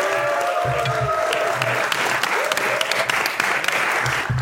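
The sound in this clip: Applause from a live show audience, dense and steady clapping that holds at an even loudness from start to finish, with a few high whoops riding on top.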